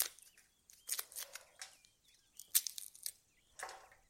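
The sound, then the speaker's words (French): Garlic cloves being peeled all at once after being struck, their papery skins giving dry crackling and crunching. Several crisp bursts come in clusters separated by short quiet gaps, with no talking. “Parfait, j'ai épluché mon ail.”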